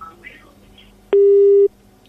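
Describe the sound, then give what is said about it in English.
A telephone busy tone cuts in on a dropped caller's line during a radio call-in: a click, then a single steady, mid-pitched tone held for about half a second over a faint background. “Well, that line there of Salim has just been dropped.”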